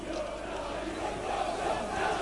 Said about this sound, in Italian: I cori che sentite giungono da Piazza San Carlo.